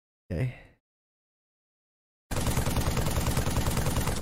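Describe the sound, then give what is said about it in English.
Rapid, dense assault rifle gunfire from the video game Halo 3 bursts in after a brief voice and a short silence, then continues loud and unbroken as a fast rattling stream until the end. “Is this the assault rifle? This is the assault rifle. Yep. Okay. There's 2 points. Too many. Yeah, that's specifically the Halo 3 one.”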